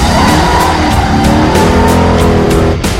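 A car engine roars hard under heavy acceleration while its tires skid and squeal during a chase, producing a loud, continuous, dense drone with no pauses.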